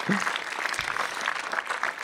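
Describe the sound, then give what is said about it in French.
Studio audience applause on a French entertainment show: dense, steady clapping from many hands fills the whole two seconds at an even level. “Merci David, applaudissements du public quand même.”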